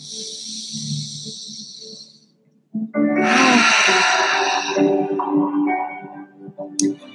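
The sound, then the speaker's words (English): A deep breath released fully from the stomach during a guided breathing exercise: one long, loud, breathy rush of air lasting about three seconds, following a quieter airy stretch and a short pause. “when we exhale, we're pressing down through our stomach and letting the air fully release from our stomach. So let's do it 1 more time.”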